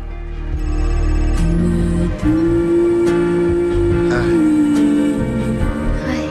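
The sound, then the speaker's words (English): A flip-open mobile phone ringing with an incoming call from home, its loud electronic ringtone sustaining steady melodic tones for several seconds without a break. “He flips open his mobile phone. Its screen reads, "Home calling."”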